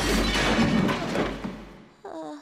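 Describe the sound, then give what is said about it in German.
Wooden scaffolding boards crash down onto a person's head, back and legs in a loud, broad clattering rumble lasting under two seconds. After a short gap, a brief vocal sound follows. “Die Bretter des Gerüsts knallten mir auf den Kopf, den Rücken, die Beine.”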